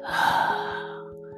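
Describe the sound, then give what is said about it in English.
A slow, deep breath in and out during a guided gratitude exercise, heard as one soft, airy swell of about a second over a faint steady tone. “Let us close our eyes and take a deep breath in and a deep breath out.”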